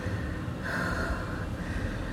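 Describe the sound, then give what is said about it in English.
Heavy breathing from someone out of breath: one faint, drawn-out rush of air rises and then fades against a low, steady background, with no voice. “Oh, you know it's good when you're out of breath.”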